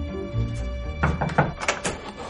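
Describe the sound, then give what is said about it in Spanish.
A door into a room is closed, with a few dull thuds and soft knocking clatter close together, moderately loud, over a quiet background. “Entra en una habitación y cierra la puerta.”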